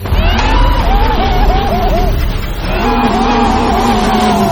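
A motorbike engine starts and revs in a tunnel, giving a loud, continuous mechanical roar with a wavering, warbling pitch and a brief dip in the middle before it picks back up.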